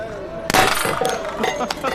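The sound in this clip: A gunshot strikes a glass target and shatters it with a sharp, loud burst, followed by a scatter of tinkling, clinking fragments.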